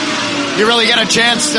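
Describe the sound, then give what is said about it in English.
Lamborghini V10 race car engine roaring at full throttle at Daytona: a loud, sustained, high-pitched howl with a shifting pitch, heard under someone speaking. “So just the raw power of our Lamborghini V10 is something that we're very fortunate to have. I think the fans are certainly enjoying it while that noise is still around here.”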